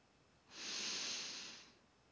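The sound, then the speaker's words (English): A slow, deep inhale during a calming guided breathing exercise: one smooth airy hiss that swells and then tapers off, heard alone against quiet. “Now we breathe in.”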